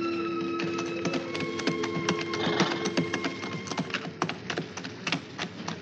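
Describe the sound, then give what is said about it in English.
Horses trot as riders head out to inspect garrisons. Many irregular hoof clatters ride over a steady background hum and grow sharper and more distinct toward the end, with no voices. “With my aide, Fred Taylor, I often rode out to inspect the garrisons.”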